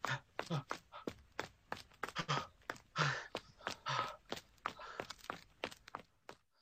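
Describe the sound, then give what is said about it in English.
People running while escaping: many quick, fairly faint footfalls in an uneven rhythm, continuing throughout. “Just keep running.”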